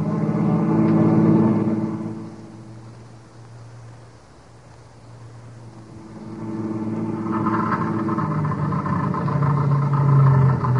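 A car engine runs out of gas, its low rumbling drone easing off for a few seconds midway, then swelling back to a steady, loud hum.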